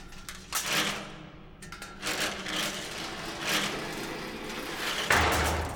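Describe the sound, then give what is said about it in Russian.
A bed pulled by a taut rope scrapes and grinds across the floor toward a door, a rough, steady dragging noise with several louder surges over a low hum. “Веревка натягивается, и кровать едет к двери.”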